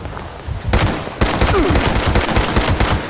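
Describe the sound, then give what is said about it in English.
Rapid gunfire from enemies shooting in a video game: many loud, sharp shots in dense bursts after a short quiet stretch, with no talk. “Oh, more guys are shooting at me. Maybe I should shoot back.”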